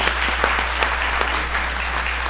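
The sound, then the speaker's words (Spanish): Audience applause at an event introducing a diplomat: dense, steady clapping from many hands that runs throughout, with a constant low hum underneath. “Démosle un fuerte aplauso.”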